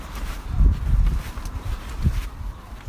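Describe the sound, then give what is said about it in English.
Footsteps of a person walking for a few minutes while looking for a flat. Muffled low thuds come at an uneven pace beneath a constant rumbling noise. “But I would say it's a 3-minute walk. So I'm walking for 3 minutes.”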